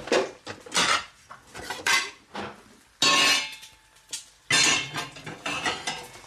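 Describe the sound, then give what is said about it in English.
Plates picked up and handled in a kitchen while nasi goreng is being served, with many irregular clinks, clatters and scrapes of crockery, some loud and sharp, others lighter. “Grab my two plates.”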